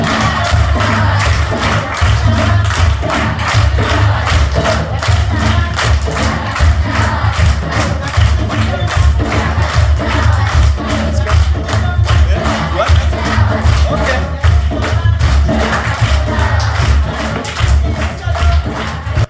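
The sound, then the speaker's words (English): Villagers in Uganda's Mityana region perform a welcome dance: driving, steady drumbeats under a loud, continuous wash of crowd voices, singing and shouting without a break. “Mityana region, they had a dance that they did. So when we showed up, they said, we have to show you our dance because this is the dance in which we welcome you and celebrate you. So this next one is them showing us and trying to teach us their dance.”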